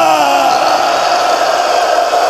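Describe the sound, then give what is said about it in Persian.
A crowd shouts together at a religious mourning gathering, many voices holding one loud, sustained cry at a steady pitch for the whole stretch. “ساحه یعنی سیه زد، یعنی داد زد. امشب تو هم داد بزن.”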